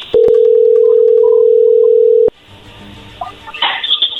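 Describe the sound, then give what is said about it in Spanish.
A telephone dial tone sounds while a call is being placed: a loud, steady single-pitch hum held for a little over two seconds, cut off abruptly by a click and followed by faint background noise. “A ver, ahí se está marcando, no hagas ruido, por favor.”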